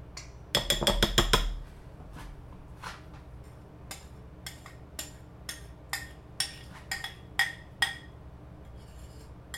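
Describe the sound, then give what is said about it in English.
A utensil clinks against a bowl while sourdough batter with walnuts is stirred: a rapid cluster of bright clinks at the start, then many lighter, irregularly spaced taps. “it says, you know, gently fold in the walnuts or any other, like, mix-ins. So let's stir to combine without overmixing.”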